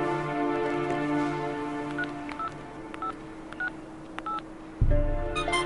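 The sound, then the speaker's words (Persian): Telephone keypad dialing tones: several short, evenly pitched beeps spaced apart over a steady background hum, followed by a low thump near the end. “حالا وقتشه. مقدمو بگیر.”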